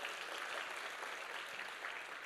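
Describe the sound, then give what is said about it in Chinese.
A church audience applauds the Guangdong group with soft, even clapping that runs steadily throughout at a low level. “我们给广东组一个热烈的掌声”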